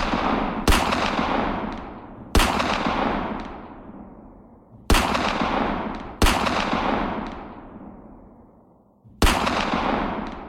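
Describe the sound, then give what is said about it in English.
A revolver is emptied in five loud, sharp gunshots at irregular intervals. Each crack is followed by a long, slowly fading tail that trails off before the next shot. “As he empties the gun on her.”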